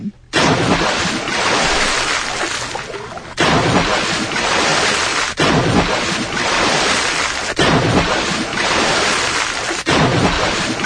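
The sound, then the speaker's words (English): Water splashes as a sound effect in loud, broad, rushing surges. Each surge cuts off abruptly and restarts, five times in a row, each lasting around two seconds. “Do we not have it? Splashes. It's under splashes.”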